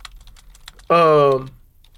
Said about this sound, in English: See how fast I type? Huh? See how fast I type?